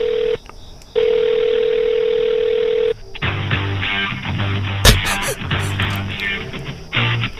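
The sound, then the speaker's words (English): A telephone dial tone sounds as a steady pitched hum, breaks briefly, resumes, then gives way to a run of shifting touch-tone beeps as the Corona Hotline is dialed. “All right, I'm going to dial it. All right, so here we go. It's calling right now. It's supposed to be calling.”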